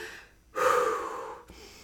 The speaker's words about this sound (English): But I remember taking big breaths out loud, like